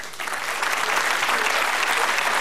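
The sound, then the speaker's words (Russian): Dense applause from the audience at a Moscow stand-up comedy show, steady and loud clapping filling the whole moment without pause and with no voices over it. “Не все мужики аплодируют, но это Москва.”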